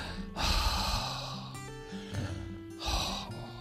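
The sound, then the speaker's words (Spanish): Several deep breaths drawn and released, breathy rushing inhales and exhales with a slightly voiced, snorting edge, rising and fading in slow, uneven waves. “Que tenemos que hacer varias respiraciones profundas.”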